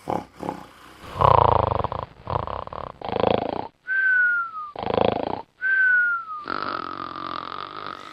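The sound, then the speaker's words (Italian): A person snoring: rasping, rumbling inhaled snores alternate with high whistling exhales that fall in pitch. The pattern repeats several times in an uneven rhythm. “Ecco che cosa disturba le nostre notti, un compagno che russa e il partner si attrezza.”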